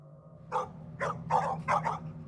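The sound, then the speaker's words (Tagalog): Pet dogs barking: several short, mid-pitched barks in quick, uneven succession over a low, steady background hum. No voices. “Isang beses nagtahulan ang mga alaga naming aso Sumilip ako sa bintana namin. Tiningnan ko kung bakit tumatahol ang mga aso namin.”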